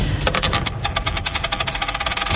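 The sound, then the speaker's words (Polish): A coin tossed during a game-show round, landing with a sharp hit and then rattling in a fast, regular run of many bright metallic clicks over a thin, sustained high ring. “To rzut monetą.”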